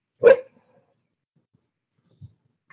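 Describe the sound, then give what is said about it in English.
A female dog barks to be let inside, giving one sharp, loud bark. Near silence follows, broken only by a couple of faint small sounds. “Who let the dogs out? I let the dogs out. That's my dog. She wants to go inside.”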